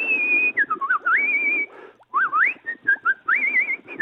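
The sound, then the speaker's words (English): A person whistles a lively, warbling tune heard over a telephone. Loud melodic phrases with quick pitch slides and trills are broken by short gaps and one longer pause near the middle. “What the hell? Who the hell is whistling there?”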